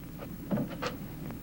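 A drawer is opened in a study, a brief, quiet run of a few soft scrapes and light knocks lasting barely a second.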